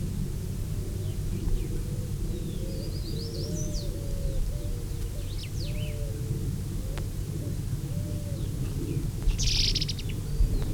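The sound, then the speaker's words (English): Several birds call back and forth, trading repeated low warbling notes and scattered high chirps over a steady low rumble. “Three birds still interacting.”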